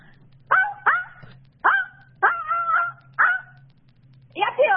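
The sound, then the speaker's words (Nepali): A person imitates a dog barking, giving about six sharp, yelping barks in an uneven rhythm. One bark is drawn out longer than the others, and a low steady hum runs underneath. “अब कुकुरको आवाज निकाल्नु पर्यो क्या।”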